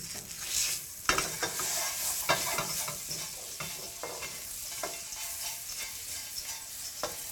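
Food fries in butter in a pan, giving a steady sizzle with irregular clicks and scrapes from stirring throughout, and no talking.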